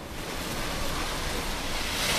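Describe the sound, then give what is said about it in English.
Rough sea waves surge as bad weather closes in: a dense, roaring wash of churning water and wind-like hiss that swells slightly louder toward the end of the short clip. “The sea becomes rougher as bad weather closes in.”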